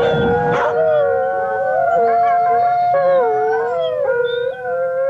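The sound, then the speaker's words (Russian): Stray dogs howl in the writers' village of Peredelkino. Several long, wavering howls overlap and run without a break through the whole clip. They are loud and sustained, and their pitch keeps sliding up and down. “Воет бездомные собаки в писательском поселке Переделкино.”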